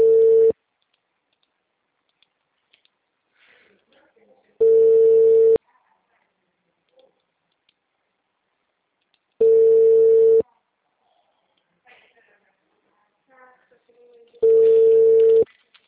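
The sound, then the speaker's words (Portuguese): Telephone tone on a call to an engaged number: four steady, mid-pitched beeps of about a second each, evenly spaced roughly five seconds apart, with only faint scattered sounds in the gaps. “O número que você ligou não possui o serviço de recado ativo em sua linha. Por favor, ligue novamente. O número está ocupado.”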